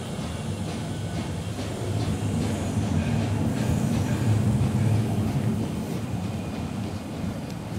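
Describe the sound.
Steady low rumble of a train pulling away from a platform, swelling slightly midway with faint rhythmic clatter over a constant mechanical drone, with no voices.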